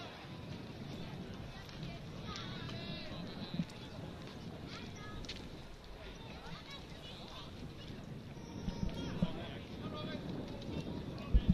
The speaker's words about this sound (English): Can hear the wind.